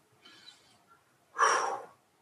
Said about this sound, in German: Atme einfach mal.